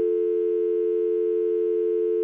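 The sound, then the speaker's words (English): A telephone line tone: one steady electronic hum at a fixed pitch that sounds alone and unbroken for about two seconds, with a faint ripple in level. “I'm getting a phone call. What do I do?”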